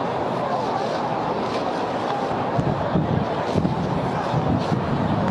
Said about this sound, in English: You can hear the wind. Is relentless.